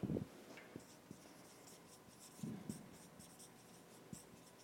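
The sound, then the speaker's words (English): Someone writing quickly by hand during a group discussion: faint, rapid scratching strokes broken by a few soft taps, with no talk over them. “And I'm writing real fast so you can't read any of this, I know.”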